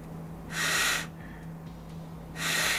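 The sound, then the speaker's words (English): Sharp nasal snorts from a person snorting cocaine through the nose: two loud, breathy bursts separated by a quieter pause, over a steady low hum. “Somebody's snorting some coke.”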